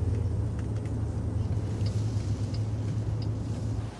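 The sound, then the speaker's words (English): A car drives along suburban streets, giving a continuous low engine and road rumble with a steady hum that stays even throughout and eases slightly at the very end. “Now the car travels along suburban streets.”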